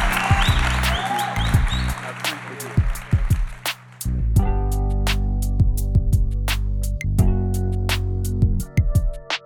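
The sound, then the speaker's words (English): Audience applause follows an interview with a chef: a burst of clapping for about two seconds, then music with a steady rhythmic beat and deep bass. “Y'all make some noise for Douglas.”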